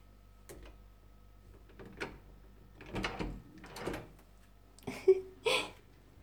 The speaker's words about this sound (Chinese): 来，把你房门打开，让妈妈进来。